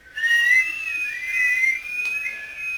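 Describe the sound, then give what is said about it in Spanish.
A person whistles a bright, high melody in a children's song about sounds, wavering and sustained without a break, loud and alone. “Me gusta el sonido que tiene el silbido y por eso me pongo a silbar.”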